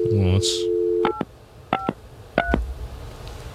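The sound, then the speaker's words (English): Telephone keypad touch tones dialing a number: three short, evenly spaced two-tone beeps, each crisp and clear, after a brief tonal sound at the start. “let's just for test purposes, I'm dialing 11119.”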